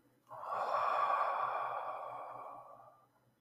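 Deep breathing during a guided breathing exercise: one long, steady breath sound, breathy and fairly quiet, sustained for about three seconds before it fades out, with no talk over it.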